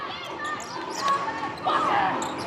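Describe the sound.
Basketball bounces on a court during a game between the University of Sydney and Macau, a few dribbles heard under continuous play-by-play commentary.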